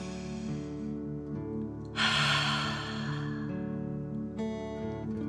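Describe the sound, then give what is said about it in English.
Slow, soft breathing in a guided children's relaxation exercise, one long airy breath that swells and fades over a steady bed of soft music, with a second gentle breath starting near the end. “softly breathe in. Feel the cool air coming in your nose and filling your tummy. Softly breathe out nice warm fire.”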